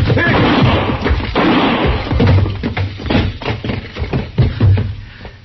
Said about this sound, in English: Don't shoot again, Chester.